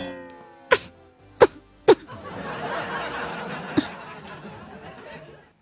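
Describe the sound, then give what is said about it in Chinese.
Throat clearing by someone on an awards stage about to give a victory speech after a campus singing contest: three short, sharp bursts in quick succession, then a fourth after a pause, over a steady murmuring background. “此时你清了清嗓子，”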